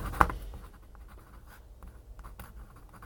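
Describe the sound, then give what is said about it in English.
Pen scratching as the date is written on a seed container label: faint, quick scraping strokes with one sharper tap near the start, continuing softly and unevenly. “And I'm going to write the date on there as well, so I know when it was sown.”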